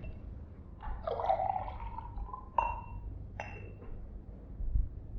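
Brandy being poured into a glass: a brief, faint trickle of liquid followed by a couple of light clinks, quiet over low background noise.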